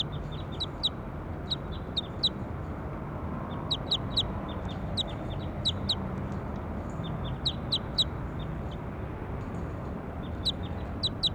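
Many short, high bird chirps come in quick clusters throughout, each call brief and bright, over a steady low rumbling background.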